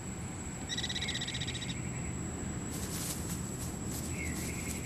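White-tailed ground jay parents call to a chick in the desert with a rapid, high, chirping trill lasting about a second, then a brief second call later, over a steady background hiss.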